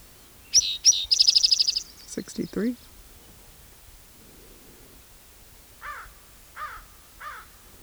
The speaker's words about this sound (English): Raven.